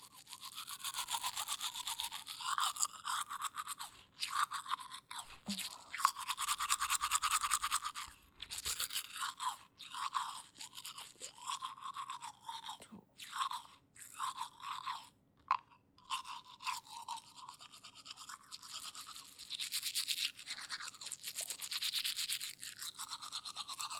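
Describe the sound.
Teeth are scrubbed with a toothbrush, working along one side of the mouth, in bursts of rapid bristly strokes broken by short pauses, with occasional wet crunchy scraping.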